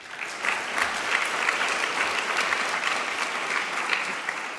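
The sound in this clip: Applause from an audience welcoming a speaker, a continuous, even wash of many hands clapping at a moderate level with small flickers of individual claps.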